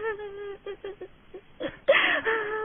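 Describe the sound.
A woman crying: short, broken whimpering sobs in a few separate bursts that build into a louder, strained wail near the end.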